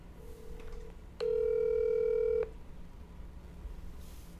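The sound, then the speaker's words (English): Telephone tones on an outgoing call: a faint short tone, then a loud, steady, buzzy electronic tone lasting about a second, followed by quiet line hiss and no voices. “Without further ado, let's give Liam a call.”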